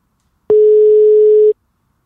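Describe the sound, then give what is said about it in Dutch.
Telephone ringback tone heard while placing a call: a single steady mid-pitched beep lasting about one second, clear and alone, followed by silence. “Oké, we gaan Nienke bellen. We gaan er bellen.”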